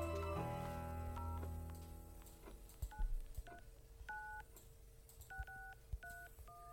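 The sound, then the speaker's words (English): A telephone keypad dials an 800 toll-free number: a series of short, clear touch-tone beeps at shifting pitches, pressed at an uneven pace and mixed with a few clicks. “So let's dial it ourselves and see if we can get through to it.”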